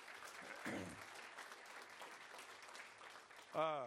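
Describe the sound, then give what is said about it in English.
Applause from a church audience, a faint, dense patter of many hands clapping throughout, with a voice cutting in briefly near the start and again at the very end. “Yes, that deserves a round of applause.”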